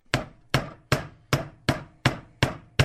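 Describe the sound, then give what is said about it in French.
Hammer striking metal wire flattened on a flat steel block during bracelet making: eight sharp, ringing taps in a steady, even rhythm, each decaying quickly before the next. “C'est une sorte de carré d'acier. Donc là, mon tas, eh ben, il est complètement plat. Oui. Et donc, quand je vais venir taper avec un marteau dessus,”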